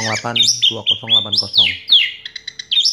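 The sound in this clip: Orange-headed thrush calling: several sharp, high whistled notes and short chirps, with a quick run of clipped notes near the end. A voice talks under the first half.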